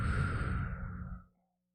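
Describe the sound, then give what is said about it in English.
A single long, deep exhale during guided relaxation breathing: a soft, breathy rush that holds steady, then trails off into silence. “Three more times, a nice deep inhale. Exhaling, softening the shoulders, jaw, eyes, hips, feet.”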